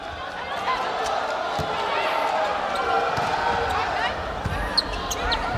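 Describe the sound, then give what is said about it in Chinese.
Ball bouncing on the court before a volleyball serve at a match, a few dull thuds against steady crowd noise that runs throughout. “全场比赛开始，上海队身穿蓝色比赛服，由副攻手陈厚宇来率先发球。”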